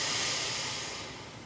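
A deep inhalation during a guided relaxation exercise, a soft, airy breath rush that starts full and gradually tapers off, heard alone without talk.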